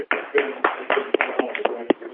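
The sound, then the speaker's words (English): Clapping leaks from a participant's background into a conference call line: a series of irregular, sharp hand claps, thin and band-limited like telephone audio. “Whoever has applause going on in their background, please mute pound pound one.”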